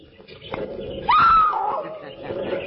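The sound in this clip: Caged animals let out a thin, high squeal that holds steady for under half a second, rising out of a low, muffled murmur that continues around it.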